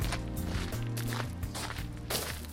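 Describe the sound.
Footsteps walking through a garden, a few soft steps over a steady humming tonal background.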